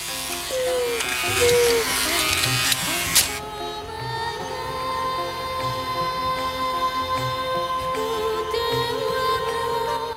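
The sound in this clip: Electric hair trimmer shaving slick black hair from a man's head: a steady, continuous motor buzz with a rougher, brighter cutting noise in the first few seconds, then an even hum.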